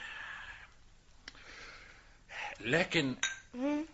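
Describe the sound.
Glasses clink together in a toast, giving a light, bright chink with a brief ringing tone. Voices then speak over the last part.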